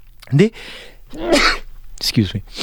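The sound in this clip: Sneezing during live radio talk about cricket spin bowling, with sharp bursts breaking up a man's speech, which continues around them.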